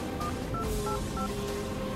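Mobile phone keypad tones as a number is dialed on a middle-aged woman's handset while driving a four-wheel-drive car: a quick series of short, bright beeps over a steady low rumble.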